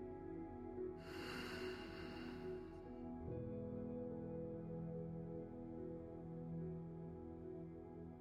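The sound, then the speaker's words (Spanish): Breathing in through the nose and then out through the mouth: a soft, airy inhale hisses for about two seconds, followed by a quieter, lower breath out, both faint over steady, calm tones. “Inhala con tu nariz. Exhala por la boca.”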